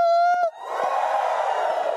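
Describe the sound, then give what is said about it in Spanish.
A church audience lets out a loud, joyful shout together. A single sustained voiced tone comes first, then the crowd's cheering and yelling erupts and holds as a dense, steady roar until the end. “So, vamos a dar un grito de júbilo otra vez más. ¿Están listos? 1, 2, 3.”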